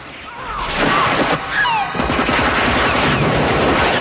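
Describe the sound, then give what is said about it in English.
Gunfire from two shooters aimed at rocks: dense, continuous bursts of rapid shots and crashing impacts, loud throughout, with a few high whistling streaks cutting through the barrage. “Diggs and Sorensen open fire on the rocks that Rick is hiding behind.”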